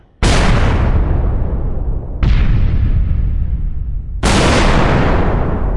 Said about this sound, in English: cinematic hits, explosions,